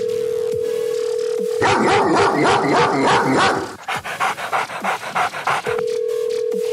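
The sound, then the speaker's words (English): A dog pants and yaps in a rapid, loud burst of rhythmic breaths, then quieter panting follows. A steady electronic tone, like a phone line, plays before and after it. “Doggy.”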